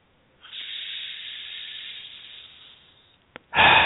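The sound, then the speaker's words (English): Deep, slow breathing during a guided breathing exercise: a long airy rush of breath lasting a few seconds that gradually fades, then a brief click and a sudden louder burst of breath at the end. “So let's just come into the breath for a moment. Let's just breathe together. Let me share this breath with you.”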